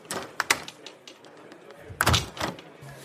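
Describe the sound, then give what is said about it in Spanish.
A window being shut in a cold room: a few light knocks and clicks, then a louder sliding thud with a low rumble just past the midpoint, followed by a faint low hum. “Es porque la ventana está abierta. Déjame, la cierro de inmediato.”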